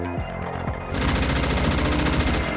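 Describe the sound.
Rapid automatic gunfire under attack at Imperius Corporation in Arcadia City, bursting in after a quieter opening and continuing as a dense, loud stream of shots to the end.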